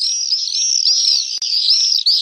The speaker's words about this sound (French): c'est le martinet noir qui va emprunter les courants ascendants et dormir dans le ciel.